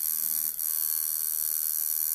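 Steady electric buzzing of a tattoo machine fitted with an 11-needle grouping, a continuous high drone that holds even throughout with no talk.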